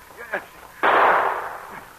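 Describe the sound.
A single gunshot in an audio drama scene at the opening of a mine: one sudden, loud crack that spreads into a broad, lingering boom and fades over about a second.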